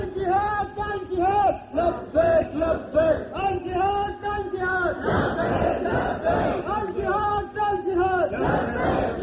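A large crowd chants a slogan in Urdu in loud, rhythmic unison at a gathering. Repeated shouted phrases pulse in waves, with a brief rougher burst of crowd noise partway through.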